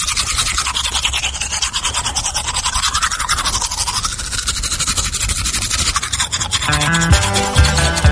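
Toothbrush scrubbing teeth: a loud, steady, rapid scratchy rubbing that continues without pause, with music entering near the end.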